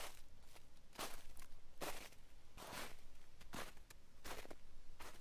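Footsteps crunch through snow in a soft, steady series of separate treads, each a brief muffled burst, quiet and with no voices.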